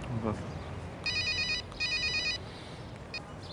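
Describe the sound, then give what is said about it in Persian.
Telephone ringing in two steady, high electronic trilling bursts, with a brief fragment of a third ring after a pause, over a constant low background hiss. “برای زنگ میخوای من جواب بدم؟”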